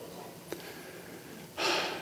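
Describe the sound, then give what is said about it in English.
A speaker draws a deep breath: one brief click comes first, then a loud, airy rush of inhaled air near the end. No one talks. “I have to take a breath here.”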